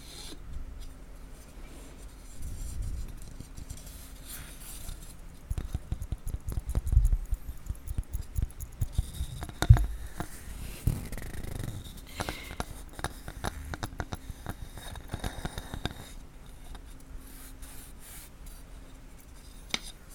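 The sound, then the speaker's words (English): Two cutting boards are handled for an ASMR recording. Soft rubbing, scraping and light tapping come and go in quiet, intermittent clusters, with no talk. “And next I have two cutting boards.”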